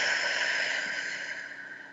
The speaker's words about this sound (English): let's take another breath in through the nose, out through the mouth.